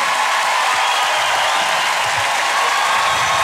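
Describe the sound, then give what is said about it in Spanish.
Loud applause from a crowd, a dense and continuous roar of clapping that stays steady and full from start to finish with no pauses. “Aplauso fuerte, Julieta Bella.”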